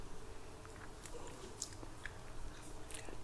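Faint, sticky chewing of thick peanut butter, a steady run of soft wet mouth clicks and smacks, quiet and without talk.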